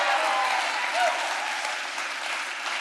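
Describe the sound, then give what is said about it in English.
Dense, steady applause from an audience cheering the Fuel Band at a Fuel Church service. The clapping holds at an even loud level throughout with no pause. “Come on, give it up one more time for the Fuel Band.”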